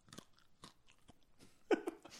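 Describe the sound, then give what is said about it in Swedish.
Soybeans being chewed, with a few soft, crunchy bites in an irregular rhythm, all quiet, and one sharper crunch near the end. “nu ska jag sluta äta sojabönor.”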